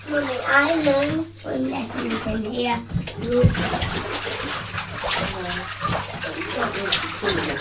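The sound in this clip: Water sloshes and splashes in a bathtub as a child bathes, a continuous watery texture under a child's and an adult's voices talking throughout.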